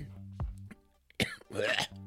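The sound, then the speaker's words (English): Faint coughing and throat clearing come from someone with something caught in the throat. A sharp cough is followed by a longer, raspy clearing of the throat over a low background hum. “Got a lump in my throat, like a bug just flew in my throat.”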